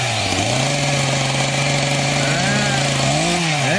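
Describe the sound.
A chainsaw engine, used for cutting down a pine tree, runs at a steady low idle, buzzing evenly, then revs up briefly near the end.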